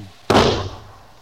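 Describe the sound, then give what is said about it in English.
A gunshot muffled by a blanket wrapped around the gun gives a single dull, heavy thump with a brief, soft decay afterward, and no other sound around it. “I wrap this blanket around the gun to muffle the sound. Aim about there.”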